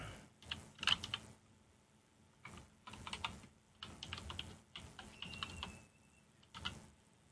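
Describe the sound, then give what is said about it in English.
Typing on a computer keyboard: several bursts of quick, light key clicks separated by short pauses, faint and with no talking. “Helps if I type.”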